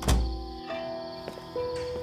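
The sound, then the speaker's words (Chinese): A door next door being closed again, a single dull thud at the very start followed by quieter faint background sounds. “周景硕往前走了一步，重新关上了隔壁的门。”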